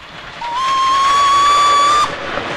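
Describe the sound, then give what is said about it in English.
A steam train whistle sounds as the train passes a signal box: a single long, steady, high whistle that steps up slightly at the start and cuts off abruptly, over a low rumble. “The train passes a signal box and the signalman pulls a points lever.”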